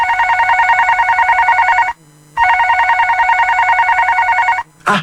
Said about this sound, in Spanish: Te están llamando.